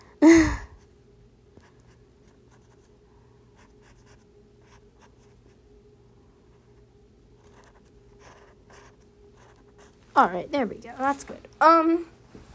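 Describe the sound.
Faint scratchy pen strokes as someone draws a letter I with an X over it on a shirt design. The soft, intermittent marks sit over a low steady hum, with short vocal sounds at the start and toward the end.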